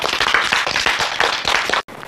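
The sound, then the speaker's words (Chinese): Students applaud the engineers with dense, steady, loud clapping from many hands that stops abruptly, then resumes faintly. “是不是要为我们的工程师鼓掌啊？”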